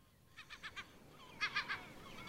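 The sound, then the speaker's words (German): Gulls screeching as fishing boats land herring: two short bursts of about four rapid, sharp high calls each, fairly faint over a soft background hiss. “Wie gierig die Möwen kreischen, wenn die Kutter den Hering anlanden.”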